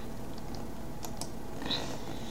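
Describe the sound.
Faint keystrokes on a computer keyboard, a few light clicks tapping over a steady background hiss.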